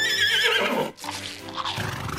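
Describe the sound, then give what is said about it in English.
A pony neighs loudly in a long, quavering high whinny that rises and falls, breaks off briefly near the middle, then resumes in lower, rougher snorting whinnies, with no talk. “The next morning when she woke up, a pony was chewing on the curtains in her bedroom.”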